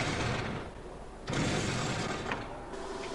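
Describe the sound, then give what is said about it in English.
Mechanical grinding and whirring from heavyweight combat robot Dreadnought's front attack forks being operated; a loud, continuous noise eases off briefly, then surges back. “This is our machine, Dreadnought. It's a heavyweight robot, and our feature of attack is these forks at the front here, which are operated like this.”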